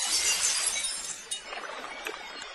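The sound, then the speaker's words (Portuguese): Glass-like shattering for a frog breaking into a thousand pieces as it strikes the surface of a lake: a loud, bright crash followed by a spray of scattered, tinkling fragments over a couple of seconds, with no voices. “Batendo na superfície do lago, o sapo partira-se em mil pedaços”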